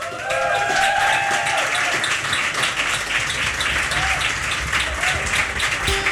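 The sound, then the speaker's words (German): Applause for a live band at a radio session on a rooftop terrace. Many hands clap in a dense, sustained wash, with a faint tonal trace near the start. “Applaus!”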